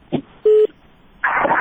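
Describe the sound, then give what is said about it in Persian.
Telephone call connecting on a radio phone-in line: a soft click, then a short steady beep, followed by a burst of noisy, crackly line sound. “یک تلفن وصل شد بخیالم.”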